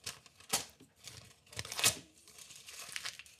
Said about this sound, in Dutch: scheurde de envelop open